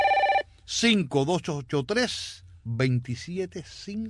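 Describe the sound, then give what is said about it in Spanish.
A telephone rings in one short burst at the very start of an incoming call, then people talk. “¿Oyendo el timbre? Ya están llamando.”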